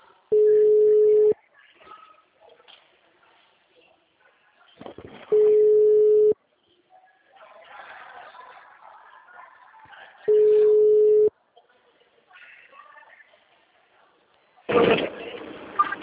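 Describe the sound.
Ringback tone of an outgoing phone call: three long, steady, mid-pitched tones, each about a second, sounding roughly every five seconds. Faint voices murmur in the gaps, and a short burst of noise comes near the end.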